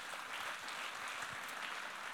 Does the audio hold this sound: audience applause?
yes